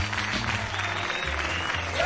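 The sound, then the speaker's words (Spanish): Audience applause welcoming a comedian onto a stand-up stage, a steady, dense wash of many hands clapping with no voices over it and a low hum underneath. “reciban con un aplauso mental, telepático o yo qué sé, al señor Frank Martínez.”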